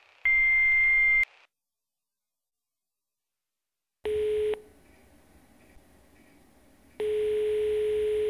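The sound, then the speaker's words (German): Answering machine beep tones: one long, high, steady beep, then after a silent gap two lower steady tones follow, each cutting off sharply over faint hiss. “Nach dem Signalton können Sie eine Nachricht hinterlassen.”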